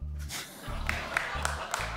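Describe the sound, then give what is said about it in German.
A lone audience member claps four times at an even pace, sharp but faint claps set against a low background hum. “Oh, wer hat hier geklatscht?”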